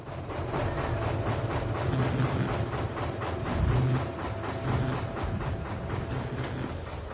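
A petrol generator runs steadily, giving a fairly faint, even mechanical chugging with a rapid repetitive pulse over broad rumbling noise, with no voices.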